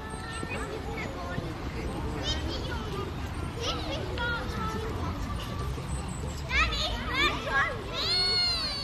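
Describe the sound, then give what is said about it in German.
A group of children playing on a lawn with their teacher fills the air with lively babble, high squeals and excited shouts, with busy overlapping voices and a few louder cries near the end. “Und plötzlich sind die Geräusche von der Stadt im Hintergrund verschwunden. Dafür ist eine ganze Truppe von Kindern mit ihrem Kinski-Lehrer auftaucht.”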